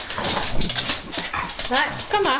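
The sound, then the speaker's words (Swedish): Two family dogs coming into a kitchen make a few short, whining yelps and scuffles that rise above ongoing conversation, clearest toward the end. “köra ut familjens 2 hundar som kommer in i köket när vi pratar.”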